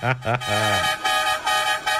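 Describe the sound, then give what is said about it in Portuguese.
A vehicle horn honks in a rapid series of loud, buzzy blasts, some short and some held a little longer, with no clear talk. “Chama, chama, chama na buzina.”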